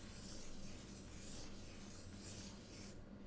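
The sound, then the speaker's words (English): Sketching on paper, a continuous soft scratching and rubbing of a drawing tool on the sheet, faint and steady, that stops just before the end. “And I'm sketching infinity.”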